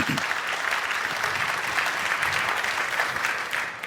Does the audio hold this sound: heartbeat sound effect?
no